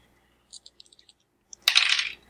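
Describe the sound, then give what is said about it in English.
Seven dice rolled for a tabletop role-playing game: a handful of light, sharp clicks, then a louder clattering rattle as the dice tumble and settle, fading quickly. “So I need to roll 7 dice.”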